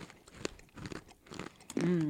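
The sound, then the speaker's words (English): Quiet crunches of someone chewing a whole handful of cumin-roasted chickpeas, a few irregular crisp bursts, then a person hums an approving 'mmm' at the end. “I'm just going to shovel the whole handful in my mouth.”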